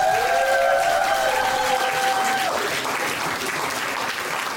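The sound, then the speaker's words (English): Audience applause at a comedy club as the next comedian is welcomed to the stage: a loud, dense, continuous clapping that holds steady throughout and eases slightly toward the end. “Ladies and gentlemen, please give it up for your next comedian here at Ellie's Comedy Club.”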